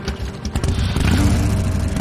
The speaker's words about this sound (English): rides away on a motorcycle